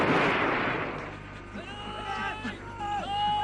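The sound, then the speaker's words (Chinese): A hand grenade explodes in one loud, broad blast at the start that slowly dies away. Quieter voices follow afterward. “手雷！”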